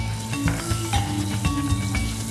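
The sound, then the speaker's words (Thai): Red curry paste frying in oil in a pot, a steady crackling sizzle with soft stirring scrapes running throughout, with no voices. “ได้พริกแกง นี่เป็นพริกแกงเผ็ดธรรมดา พริกแกงเผ็ดธรรมดา ค่ะใส่พริกแกงเลย เพื่อจะผัดนะครับ”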